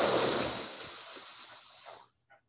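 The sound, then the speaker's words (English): A quick breath drawn in during a guided breathing exercise: one airy, hissing inhale that starts strongest and tapers off over about two seconds, heard alone without talk. “Once more, breathe in quickly.”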